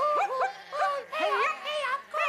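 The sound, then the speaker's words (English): A three-legged dog whimpers and yips in a quick series of high, wavering whines and short cries, each with a bending pitch, separated by brief gaps and fairly faint overall. “The three-legged dog, sensing a paying job, hops, bounces and limps into action.”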